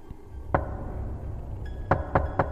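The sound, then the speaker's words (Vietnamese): Heavy knocking and banging on a house's back door at night: one sharp knock, a pause, then three quick loud thuds in close succession. “Tiếp theo đó là một tràng gõ cửa vang lên từng hồi đến ghê rợn. Lần này không chỉ là gõ mà cảm giác như nó đang đập cửa thùng thùng vậy.”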